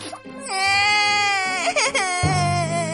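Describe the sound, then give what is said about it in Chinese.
A voice imitates a winged insect creature, like a four-winged leech, crying: a high, bleating wail that holds and wavers, then breaks into a short sob before a rougher, lower sound at the end. “呃，你别哭了，我们跟你一起玩好不好呀？”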